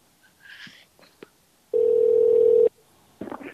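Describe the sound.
A telephone dial tone heard while calling 911, a single steady pitched tone held for about a second, with faint rustles and brief soft voice sounds before and after.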